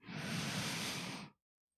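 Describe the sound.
A deep inhale through the nose during guided breathing, one soft, airy rush of breath lasting just over a second before it cuts off into silence.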